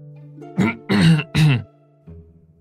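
Someone clears their throat in three short, harsh bursts while crouching on a table, over a soft sustained musical tone, followed by a fainter low sound.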